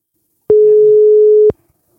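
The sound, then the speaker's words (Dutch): A telephone ringback tone sounds while a call is being placed: one steady beep at a single pitch lasts about a second and then stops, leaving silence. “Thalies en ik gaan vandaag bellen met Inge.”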